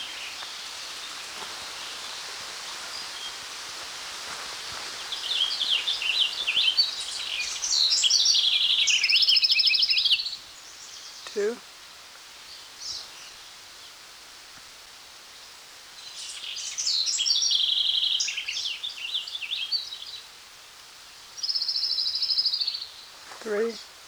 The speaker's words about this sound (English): An orange-crowned warbler of the subspecies Arresta.